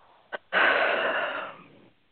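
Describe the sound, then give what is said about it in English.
A deep breath out: a quick short puff, then one long, airy exhalation lasting over a second that gradually fades, with no voice over it. “It's time for you to let this go. Just breathe deeply and let it go.”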